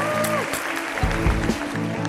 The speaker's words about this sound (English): And a round of applause. Another round of applause.